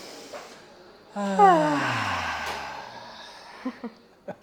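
A group breathes out together through the mouth during a guided exercise: a sudden voiced sigh that falls in pitch and fades into a long, breathy rush of air, followed by a few soft puffs.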